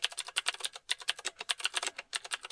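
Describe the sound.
Rapid typing on a computer keyboard while writing a line of text. Many crisp, quiet key clicks come in an uneven rhythm with a few brief pauses and no voices.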